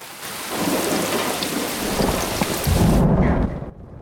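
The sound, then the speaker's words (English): Heavy rain falling on a dark night, a dense, steady hiss with deep thunder rumbling beneath it, swelling louder near the end before cutting off abruptly. “It's a dark, rainy night at the Devereaux house.”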